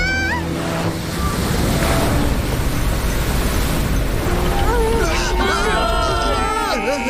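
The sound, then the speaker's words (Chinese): Waves crash and water churns loudly and continuously as a ship sinks at sea, with shouting voices rising over the surge toward the end. “船要沉了，弃船！ 弃船！”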